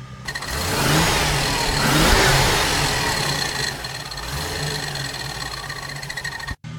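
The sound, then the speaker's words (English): A car engine revs while a mechanic checks it for a belt problem. A steady mid-pitched hum swells to a peak, then settles into a sustained drone with a faint whine above it. “Rev it up.”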